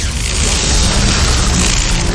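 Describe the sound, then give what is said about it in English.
Red fire consuming a skeleton's corpse in a video game: a loud, dense roaring hiss that holds steady throughout, with no voices. “And the corpse burns up in red fire. Red techno fire! It's ash, totally gone.”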